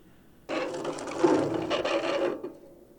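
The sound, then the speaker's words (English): Grinding, ratcheting scrape of a screw being pried loose by hand in a video game: one continuous rough mechanical burst lasting about two seconds, fairly loud and steady, with no voices. “A screw! I might be able to pry it loose with my hands.”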